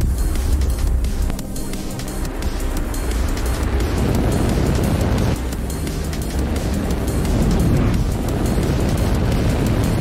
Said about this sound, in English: Launch auto sequence has started. 6, 5, 4, 3, 2, 1. Go for launch.